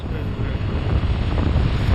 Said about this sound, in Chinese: 现在开始起外面风了， 雪原上起风了。